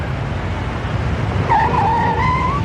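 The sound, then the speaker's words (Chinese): A car pulls to a stop on a town street. A short, high tire squeal rises over steady road and engine rumble in the second half. “车在县城街道上停下”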